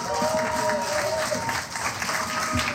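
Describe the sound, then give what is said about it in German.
An audience breaks into applause, a steady wash of many hands clapping across the whole moment, with a voice briefly heard over it. “Ich finde, das ist noch ein extra Applaus wert.”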